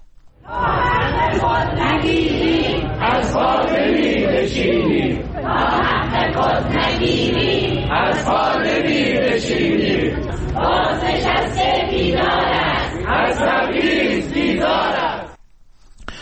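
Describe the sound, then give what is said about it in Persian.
Protesting pensioners in Kermanshah chanting slogans in unison, loud, rhythmic phrases from a crowd of voices repeating in steady waves before cutting off near the end. “این صدای گروهی از معترضان در کرمانشاه است.”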